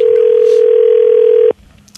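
A telephone tone sounds as a call is placed: a single steady electronic tone holds for about a second and a half, then cuts off abruptly into faint background noise.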